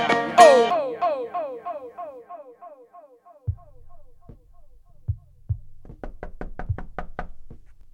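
Knocking on a door follows a descending, ringing tone that fades out. A few separate knocks come first, then a quick run of sharp raps near the end.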